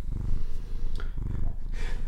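A cat purrs steadily while being stroked on a sofa, producing a low, continuous rumbling in rhythmic swelling and easing cycles that run through the whole moment, with no voices over it.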